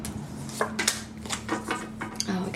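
Tarot cards are shuffled and drawn in a handful of soft, crisp papery flicks and snaps spread across a couple of seconds, above a low steady hum.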